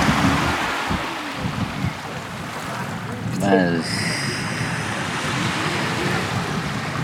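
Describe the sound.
Sea water washes and laps steadily around a swimmer floating in the sea, a continuous, fairly loud rushing wash of waves that holds even from start to end.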